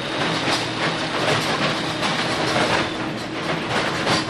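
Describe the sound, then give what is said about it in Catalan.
Loud, continuous rattling and grinding of a track machine loosening old wooden railway sleepers from 1985 so they can be pulled out and replaced with concrete ones; a dense, steady mechanical roar with no voices. “Ara, per exemple, el que estem sentint és com estan començant a afluixar els i les travesses, perquè quan la màquina pugui començar a treballar, ja les trobi fluixes, es pugui obrir el forat i començar a canviar.”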